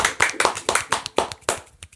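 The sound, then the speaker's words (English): Enthusiastic hand clapping by a single person: a quick, slightly uneven series of sharp, crisp claps that gets a little softer toward the end. “I love the fact that you've done a really enthusiastic hand clap and you just did a one-handed.”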